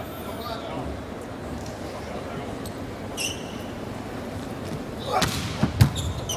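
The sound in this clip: A volleyball serve by Wang Bin in a match with the Chinese team: a couple of sharp thuds of the ball being struck rise over steady crowd noise while commentators talk.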